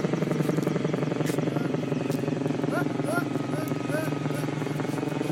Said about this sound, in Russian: Вертолет улетает.